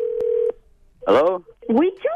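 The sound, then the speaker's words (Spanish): A telephone keypad tone sounds on a line where callers got crossed: one steady electronic tone lasts about half a second, with a tiny click inside it. It stops abruptly, and then people talk loudly over the phone. “¿Me estás, me estás marcando? ¿Qué pasó? No, tú me marcaste a mí.”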